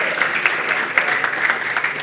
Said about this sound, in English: A big round of applause for you guys as well.